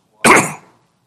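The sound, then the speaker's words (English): A single loud throat-clearing cough: one short, harsh burst of about half a second, heard on its own with no talking. “I'm trying to clear my throat, and it's slow to do so.”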